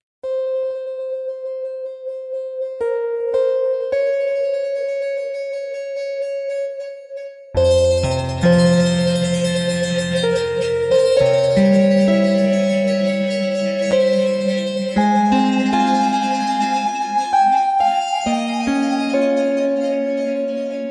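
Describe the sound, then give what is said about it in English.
A Reactor Prism software instrument demo opens with sparse, sustained bell-like synthesized tones. A fuller layered passage follows, with deep low notes and shimmering resonant chords ringing on at a steady level. “That was the sound of the Reactor Prism instrument.”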